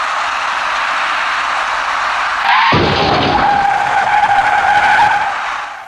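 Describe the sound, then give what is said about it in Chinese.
Tires skid as a white van turning left collides with a green car going straight through an intersection. A sustained screech is cut by an abrupt, louder burst of noise partway through, and the noise continues to the end. “在路口里面，由南向西左转弯的白色面包车跟那辆由北向南直行通过路口的绿色小客出现了严重相撞。”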